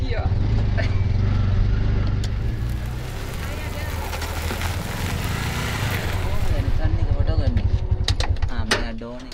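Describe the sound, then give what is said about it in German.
A tuk-tuk engine labouring in first gear on a gravel road, a rough, continuous putter with rattling that swells again near the end. “Also schmeißen wir mein Tuk-Tuk nochmal an. Ab geht's auf die nächste Schotterpiste. Was ist das für eine Straße? Jetzt muss ich in den ersten Gang.”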